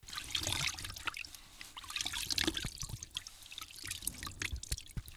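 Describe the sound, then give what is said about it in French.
Water splashes and trickles as a man scoops it from a reservoir in his hands to wash mud off his face, with irregular drips and small pours at a moderate level. “Il prend de l'eau dans ses mains et se lave le visage pour enlever la boue.”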